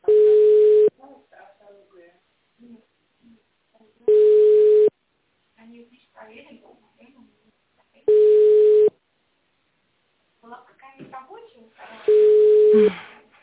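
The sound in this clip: A telephone ringback tone plays for a call that goes unanswered: four steady, mid-pitched beeps about a second long, spaced roughly four seconds apart, with quiet voices talking in the gaps.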